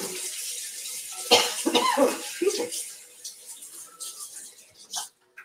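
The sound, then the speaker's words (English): Water runs from a tap as a cook rinses messy hands in the middle of preparing food, a steady hissing splash that holds through most of the moment before cutting off abruptly at the end. “excuse me while I clean my messy paws.”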